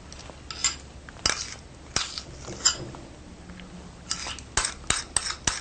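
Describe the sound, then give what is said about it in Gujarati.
Ghee is spooned into a pan on a gas flame set to medium, producing light metallic clinks and taps of the spoon against the pan. Scattered quiet strikes give way to a quicker cluster of sharper clicks over a low hum. “અને medium આંચ ઉપર gas પર ચાલુ રાખો. પેલા નાખશું ઘી.”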